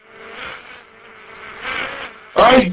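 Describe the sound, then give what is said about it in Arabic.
Thin whining buzz of mosquitoes in a dim prison, a high drone that swells and fades twice before a brief, louder burst at the end. “يا ابونا ده مش جبان، ده ناموس.”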